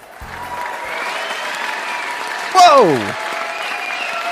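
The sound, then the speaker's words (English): Studio audience applauding and cheering at the start of a game show, with dense, steady clapping throughout. Midway, a single voice briefly cries out over it with a falling pitch. “No, calm down, everyone. There will be plenty of time to change those cheers into boos later.”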